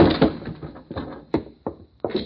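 A door is thrown open in a hallway during a tense police crime drama: a heavy, broad thud followed by a few sharper knocks and bangs, with no voices.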